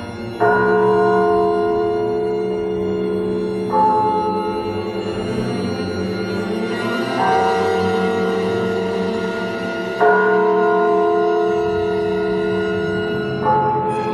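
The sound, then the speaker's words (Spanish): Church bells toll slowly at night: about five deep strikes roughly three seconds apart, each tone ringing on until the next, over a low rumble. “¿Las oye? Son unas campanas que anuncian que algo sobrenatural va a ocurrir.”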